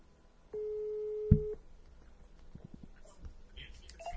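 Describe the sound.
A telephone tone sounds while a call is being placed: one steady tone lasting about a second, followed by faint background noise and soft clicks.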